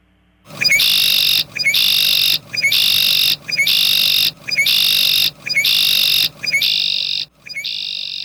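A male bird's song, looped: eight buzzy, trilling high phrases repeat in a steady rhythm with short gaps between them, and the last two are softer than the rest.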